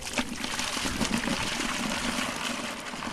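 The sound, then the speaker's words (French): Water splashes and pours as a woman draws it from a private borehole in Lomé, Togo, a steady wash of trickling and sloshing at moderate level with no voices. “Qu'est-ce que vous êtes en train de faire là? Je suis en train de puiser de l'eau.”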